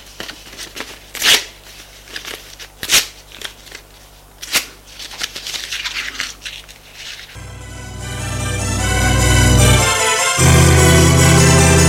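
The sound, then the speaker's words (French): A paper letter is torn up with crackling, uneven rips and scattered sharp tears. Partway through, a loud, sustained rushing sound swells in and takes over. “Déchire cette lettre, c'est ridicule. Et il déchire la lettre devant elle.”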